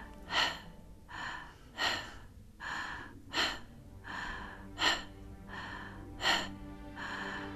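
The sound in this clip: Quick, sharp breaths drawn through the back of the throat during a guided breathing exercise. They repeat in a steady rhythmic series of many raspy, airy bursts, some stronger than others, with no talking.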